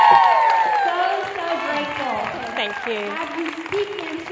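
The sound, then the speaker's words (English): An audience at a Fearless Mom gathering greets a guest speaker with applause, cheers and whoops. It starts loud and eases slightly, with voices rising over the clapping. “I would love it if you would put your hands together and welcome her to Fearless Mom.”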